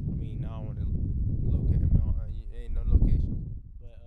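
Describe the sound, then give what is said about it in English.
Wind buffets a microphone outdoors downtown while someone rides a bike, a constant low rumbling roar under a man's talking. “It's windy as fuck, so I know this shit sounds terrible.”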